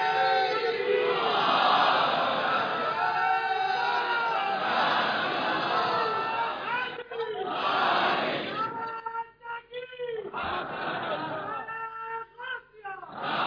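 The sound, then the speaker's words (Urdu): A large crowd chants a slogan at a night gathering. Loud, sustained shouted voices sound in unison at first, then break into shorter separate calls with brief gaps near the end. “چلو جتنا تم سن سکتے ہو، تمہارا نعرہ ذرا لگاؤ، تمہاری طاقت ہم دیکھیں”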